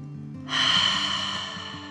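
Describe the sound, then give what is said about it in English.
A deep breath, drawn as one long airy rush that swells quickly and fades gradually, heard on its own. “She took a deep dragon breath in and out.”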